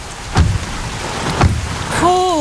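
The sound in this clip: Heavy rain pours steadily during a thunderstorm, heard from inside a car, a constant loud hiss broken by two brief, louder bursts.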